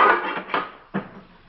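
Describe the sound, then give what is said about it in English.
A pot lid is dropped onto a kitchen counter. It lands with a ringing clatter, then gives two shorter knocks as it bounces and settles, leaving quiet. “He steps to a counter, picks up the lid of a pot, and intentionally drops it.”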